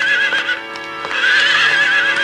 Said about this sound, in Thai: มีพ่อค้าม้าคนหนึ่งเดินทางมาจากแคว้นอุตรปถัมภ์ซึ่งอยู่ขึ้นไปทางเหนือจากแคว้นกาสีต้อนม้า500ตัวมาขายให้แก่พระราชา